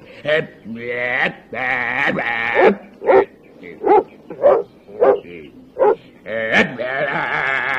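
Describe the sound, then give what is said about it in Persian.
Barking from a voice imitating a dog: many loud, rough bursts, a few long drawn-out yelping cries early on, then a run of short, sharp barks. “چطوری منم پارس کنم؟ تو بیا اینجا اینو نگرش دار، من بهش پارس میکنم.”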